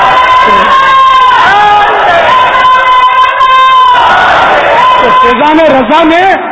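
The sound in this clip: Crowd chanting a religious slogan in unison at a live Islamic religious gathering. Loud massed voices rise and fall together in rhythmic phrases, with a prominent lead voice among them.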